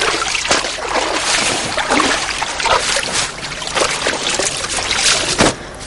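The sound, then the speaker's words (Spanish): Water sloshing and splashing as a girl wades out of a river and climbs a muddy bank, a continuous rough wash broken by several splashy bursts, with one sharper burst near the end. “termina de lavarle el pelo a su hermana y sale del agua subiendo por un terraplén fangoso.”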